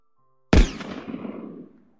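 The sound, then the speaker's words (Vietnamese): A single gunshot goes off inside a prison cell after silence: one sudden, loud, sharp blast whose booming tail fades away over about a second. “Súng được bóp cò. Một tiếng nổ lớn vang lên bên trong phòng giam.”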